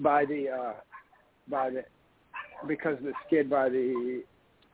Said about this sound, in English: I have dogs going crazy in my house for no reason